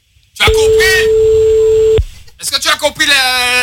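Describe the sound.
A telephone tone sounds while calling a mobile phone: one steady, unbroken mid-pitched tone lasting about one and a half seconds. Voices overlap its start and people talk after it stops.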